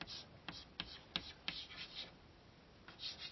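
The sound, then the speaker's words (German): Faint handwriting as notes are jotted down: a quick series of short, scratchy pen strokes on paper, then a pause before a few more strokes. “Ja, ich schreibe noch dazu hier.”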